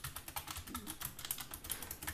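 Rapid typing on a computer keyboard while notes are taken down, a dense run of many light keystrokes in an uneven rhythm with no voices.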